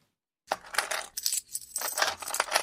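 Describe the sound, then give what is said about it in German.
Coins of cash dropping, bright metallic clinking and jingling that starts after a short silence and comes in a few overlapping bursts. “Dieses Geräusch hört man in Schweden kaum noch, denn hier wird fast alles mit der Karte bezahlt, selbst das Eis am Kiosk um die Ecke.”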